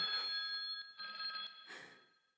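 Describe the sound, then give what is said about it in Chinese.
A telephone rings with a faint electronic trill in a few short bursts, each one steady and high-pitched, with no voices. “你 电话来了。”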